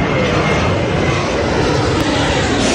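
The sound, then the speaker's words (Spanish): Aircraft roar at a 200-metre cargo warehouse beside the runways of Paris-Charles de Gaulle airport: a loud, dense, steady engine rumble that holds level throughout, with no voices. “En esta bodega de 200 metros de largo, pegada a las pistas de aterrizaje del aeropuerto de París-Roissy”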